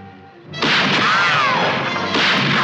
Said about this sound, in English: Fire a few shots, maybe it'll turn around. No effect on it at all. Try again. I'll aim above her.